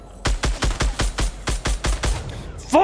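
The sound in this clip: Gunfire in a video game: a rapid, evenly spaced series of loud, sharp shots, followed by a voice at the end.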